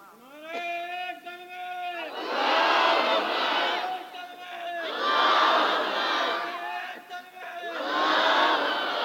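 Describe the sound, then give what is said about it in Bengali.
A large crowd at a religious gathering loudly chants the takbir, "Allahu Akbar," in three roaring bursts, each led by a single voice calling out before the crowd answers. “Ready হন, তাকবীর দিতে হবে জোরে, লিল্লাহে তাকবীর।”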